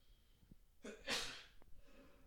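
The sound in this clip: A single faint sneeze: a short intake of breath, then a sharp, hissing burst, with soft breathing before and after.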